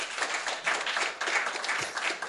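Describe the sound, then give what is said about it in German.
Audience applause fills the moment with dense, steady clapping that swells and dips slightly. The applause is moderately loud, with no voices standing out. “Applaus? Ja, die wissen ja noch nicht, was kommt.”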